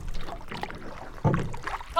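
A small boat is pushed off into a creek, giving a few dull scraping and sloshing water bursts against a steady wash of low noise, with the strongest surge about midway and a short one at the end.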